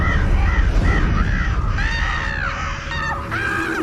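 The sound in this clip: Crows caw in a series of harsh, hoarse calls, some short and some drawn out, repeating over a steady background hiss.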